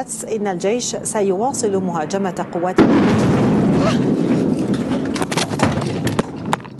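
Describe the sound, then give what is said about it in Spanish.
A bomb explosion during an Israeli air strike on Damascus, Syria, breaks into a live television report. A reporter speaks for a few seconds, then a sudden loud blast erupts into a dense roaring noise that continues to the end. “Cae una de las bombas con las que Israel atacó ayer Siria.”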